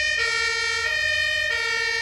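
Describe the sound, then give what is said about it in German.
A fire engine siren wails as the truck passes along a road alongside a heavy lorry and several cars, a loud, sustained, harmonically rich tone that carries through the whole moment. “Ich hoffe, man kann mich ganz gut verstehen, weil jetzt gerade hier an der Stelle nochmal ein Feuerwehrauto vorbeifährt, ein schwerer LKW und mehrere Autos.”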